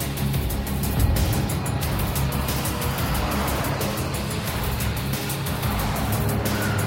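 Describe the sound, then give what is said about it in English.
A convoy of an ATV, a school bus, a van, an ambulance, a truck and a tanker driving along a dusty desert road, making a dense, continuous rumble of engines and tyre noise that stays loud and even throughout. “the ATV, the school bus, a van and an ambulance, a truck and a tanker roll through the arid, sun-parched landscape.”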